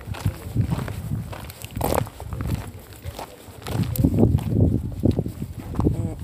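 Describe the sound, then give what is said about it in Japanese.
Footsteps climbing steep white stone stairs with tall steps at ancient Roman ruins: many uneven scuffing, crunching steps over continuous rough background noise. “階段を登ってるんですけど結構きついです段差が大きくて”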